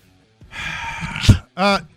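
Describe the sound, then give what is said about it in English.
A big, deep breath during a sports discussion: a long, breathy intake lasting about a second, followed by a short voiced exhale. “Like for me personally, that was a hell of a breath.”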